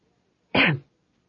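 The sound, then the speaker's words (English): A single short cough from a man, loud and on its own, lasting about a third of a second. “He coughed.”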